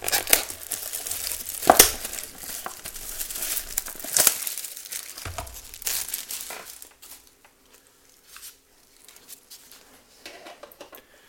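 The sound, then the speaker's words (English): Foil wrapper crinkling and tearing as a pack of 2023 UFC Select trading cards is ripped open. A few sharp bursts of crackle come first, then lighter, quieter rustling, with no talk. “So here's rip number two of 2023 UFC Select here on the UFC Fight Cards podcast.”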